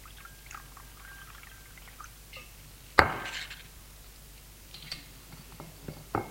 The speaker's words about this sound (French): Elle va vers la table. Pour prendre un verre et le remplir d'eau.